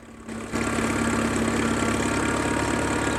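A tractor engine runs while ploughing a field, a steady low rumbling drone with a constant droning hum. It grows noticeably louder after the first half second, then holds evenly with no voices.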